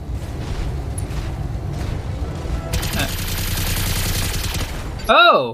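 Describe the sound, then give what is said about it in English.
Rapid machine gun fire in a video game, set off by a melee attack: a dense, sustained rattle of shots builds for a few seconds, then a brief warbling electronic tone follows. “I guess if you do a melee attack, you can automatically fire your machine guns. Because it fired the machine guns.”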